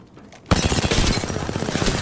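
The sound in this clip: Gunfire erupts in the video game Apex Legends: after a quiet start, rapid bursts of shots begin abruptly and keep going in a dense, loud rattle to the end.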